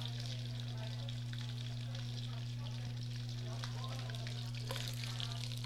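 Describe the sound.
Pork fat sizzles as cracklings render in a hot Dutch oven to collect the lard, a steady, dense crackling hiss running the whole time over a constant low hum.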